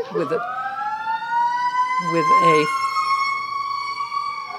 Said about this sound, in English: The other one was an ambulance, and that was a fire truck, in case you want to know.